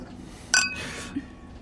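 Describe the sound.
Glasses clinking in a toast as two people drink together, one bright, sharp clink with a brief ringing tone that fades quickly over a quiet background.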